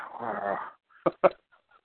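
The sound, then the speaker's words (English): A dog whimpers, giving a drawn-out, wavering whine followed by two short, sharp yelps, then faint traces of sound. “That's a real dog, too.”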